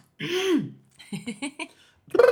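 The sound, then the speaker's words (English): Throat clearing to get phlegm out: a drawn-out, rasping vocal grunt, then a few short, choppy hacking bursts and a final rough burst at the end. “Get that phlegm out.”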